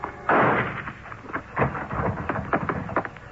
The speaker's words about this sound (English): The shots came from a low barn-like building at the rear of the property, and I wasted no time getting over there to see if Pedro's prophecy had already been fulfilled.